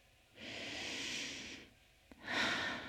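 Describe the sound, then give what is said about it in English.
Deep breathing: one long, loud breath followed by the start of a second, with a brief quiet gap and a small click between them. No voices are heard. “Want to give yourself a hug? Well, come by and breathe with me.”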